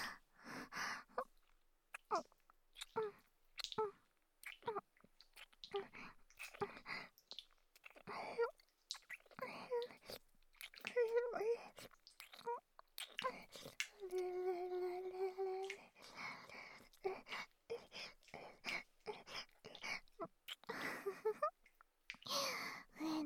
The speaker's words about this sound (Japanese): でも、ぼくちゃんとチューだね。ママの唇、おいしいかな。